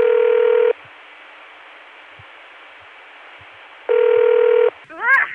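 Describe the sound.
Telephone tones from a Dimension PBX reached through ContelNet: two identical steady buzzing tone bursts separated by a few seconds of faint line hiss, then a brief warbling chirp at the end.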